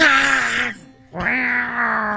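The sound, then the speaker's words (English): A person's voice imitates a cat in heat, giving two drawn-out, wavering, harmonic yowls separated by a short pause. “That is a cat in heat.”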